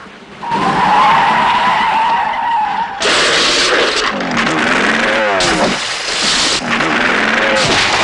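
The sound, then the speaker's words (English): A bus skidding round 180 degrees through a large puddle on a coastal road: a loud, sustained rush of tyre and spray noise with warbling, squealing tones partway through, continuing steadily to the end. “Bond drives through a large puddle on a coastal road and skids the bus round 180 degrees.”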